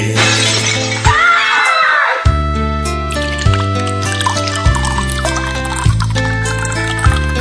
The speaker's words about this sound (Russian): за раз глотал бы граммов 200, бутылку разбивал о пень, бутылку разбивал о